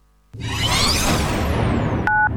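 A single brief telephone keypad beep, steady and clear, follows a long, loud rush of broad noise as a phone number is being called.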